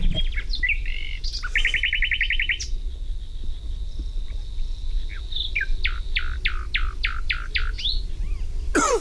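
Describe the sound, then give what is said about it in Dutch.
A nightingale sings varied phrases: a fast, buzzy trill, scattered short whistles, then a run of repeated sharp notes, all over a steady low background hiss. “Ja, de nachtegaal is jouw favoriete vogelgeluid. Ja, het geluid is prachtig.”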